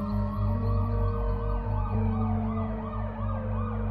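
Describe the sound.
Police and ambulance sirens arriving at an emergency scene, wailing in steady repeated rising-and-falling sweeps over a constant low droning hum, loud and continuous throughout.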